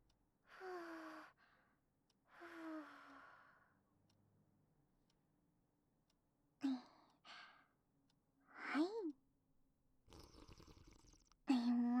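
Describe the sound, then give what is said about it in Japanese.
Someone blows on soup to cool it with two soft, breathy puffs, each about a second long and carrying a faint falling voiced tone. A few brief, quiet sounds follow after a pause. “スープも飲んでみる？いいよ。じゃあ、ふうふうしてあげるね。”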